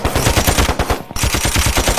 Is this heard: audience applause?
no